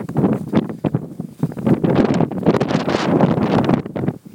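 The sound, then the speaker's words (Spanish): Gusty wind buffets the microphone in loud, uneven rumbling bursts that run almost without a break, then drop away sharply right at the end. “Viento.”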